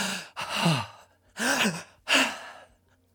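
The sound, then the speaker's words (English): A person breathes in a pattern of joy: three airy, partly voiced sighing breaths, fairly loud and quick, with short pauses between them. “When they felt joy, it sounded like this.”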